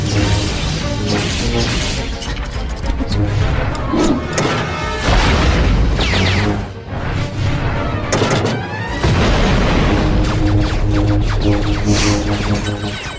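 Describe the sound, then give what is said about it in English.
Mines or charges exploding as they blow up droids in a video game: dense, loud, continuous booms and crashes that run through the whole stretch, with no clearly separate blasts. “Those are mines or charges. Yeah. But when they blow the droids up, full of charges.”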